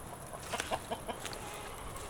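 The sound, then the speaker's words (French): Hens cluck faintly in a farmer's first henhouse, which holds around ten birds. Several short, soft clucks come in quick succession around the middle, over a steady hiss. “Puis là où il y a la cabane, là, ça c'est mon premier poulailler. C'est le poulailler où j'ai commencé”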